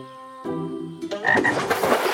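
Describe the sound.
Frogs croak at a pond. A few low, buzzy croaks build into a denser, noisier chorus toward the end, with no voices.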